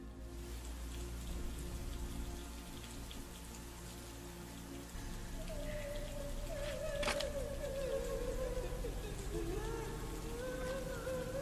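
Rain and wind on a dark night form a steady, faint, broad wash of patter and hiss. A thin, wavering whistle slides through the second half.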